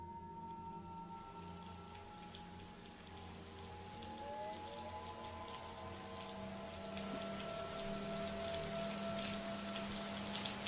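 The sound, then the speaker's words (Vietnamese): Heavy rain pours down as a steady, dense hiss that swells slightly louder after the first few seconds and then holds evenly to the end. “tiếng sấm sét và cơn mưa ầm ầm đổ xuống”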